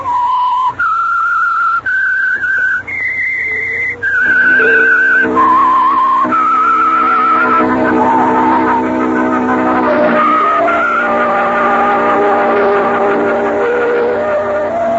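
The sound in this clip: Tires squeal as a car takes a right turn at a corner, a long wavering screech that steps between high tones over a steady rumbling motor, with no talking.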